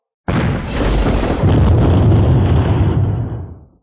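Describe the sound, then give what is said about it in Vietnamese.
A loud explosion from colored light orbs striking a glowing star-patterned barrier bursts in abruptly, then swells into a heavy, sustained roaring rumble lasting over three seconds before fading out. “Liên tiếp tiếng nổ mạnh vang lên”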